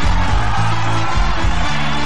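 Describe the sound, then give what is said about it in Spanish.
An audience applauds and cheers for young performers from a youth arts school and a cultural school, a dense, continuous wash of clapping and crowd noise that stays loud throughout. “Otro aplauso para los chicos de Balmaceda Arte Joven y de la Escuela de Cultura.”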